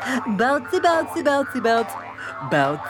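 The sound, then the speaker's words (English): Cartoonish springy boing effects mark bouncing on a bouncy house, several quick wobbling tones in an uneven rhythm, loud and with short gaps between them. “Woo! I love bouncing. I could do this for hours. Me too. Woo!”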